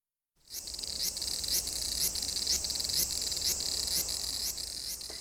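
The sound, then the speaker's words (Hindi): Aburazemi cicada song recorded in Japan: a dense, sizzling high-pitched buzz starts abruptly after a moment of silence and continues steadily, with rhythmic pulses about twice a second. “जी ये था अबरा Jamie.”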